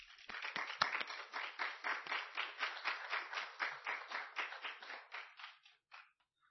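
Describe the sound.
Applause from a church audience welcoming a visiting brother: faint, steady clapping with a fairly regular rhythm that thins out and stops near the end.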